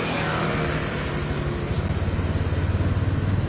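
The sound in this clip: Engine of an old motorized tricycle cart (rot leng) running: a rough, noisy drone that settles into a low, rapid rhythmic putter in the second half, with no voices.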